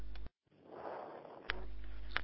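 Someone breathes into a telephone receiver over a muffled, narrow line: one slow breath swells and fades, followed by two sharp clicks.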